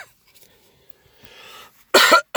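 A person coughs to clear their lungs while taking guaifenesin. Soft breathy throat noises lead into one loud, harsh cough burst, and another cough begins right at the end.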